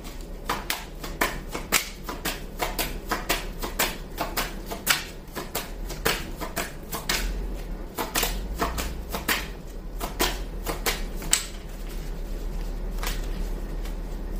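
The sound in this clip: Tarot cards being shuffled and spilling, many sharp papery snaps and flicks in a rapid, uneven series that gives way to a denser, steadier rustle near the end.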